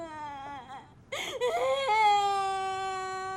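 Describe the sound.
A child crying: a high, wavering harmonic wail that dips, breaks into a short breathy sobbing burst midway, then rises into a louder, sustained high-pitched cry that holds to the end, with no other voices.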